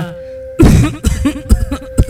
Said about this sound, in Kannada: ಏನೇ ಆಡದ್ ಕೆಮ್ಮು ನಿಲ್ತಾನೆ ಇಲ್ವಲ್ಲಪ್ಪ.